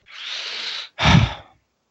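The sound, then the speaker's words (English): A sharp inhale draws in as a rushing, airy hiss lasting nearly a second, followed straight away by a shorter, heavier breathy burst with a low rumble, then silence. “That inhale right there just says it all.”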